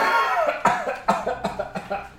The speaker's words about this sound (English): everyone's coughing.